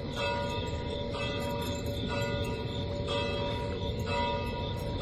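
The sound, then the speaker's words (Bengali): A large bell high in a tower tolls with deep, evenly spaced strokes about once a second, each stroke blending into a long, sustained metallic hum that rings on between them. “টান মারায় টাওয়ারের উপরের বড় ঘণ্টাটা ঢং ঢং করে বিচিত্র শব্দ করে উঠল।”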